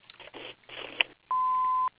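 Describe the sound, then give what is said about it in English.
An answering machine sounds its voicemail beep: a single steady, mid-pitched tone lasting about half a second, loud and clean, following brief muffled sounds on the phone line. “if you please leave your name and phone number after the tone, we will return your phone call as soon as possible”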